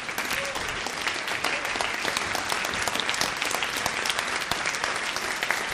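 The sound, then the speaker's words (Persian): Audience clapping: steady, dense applause of many hands that holds at an even level throughout. “بعضی هنوز اینجوری دست میزنن.”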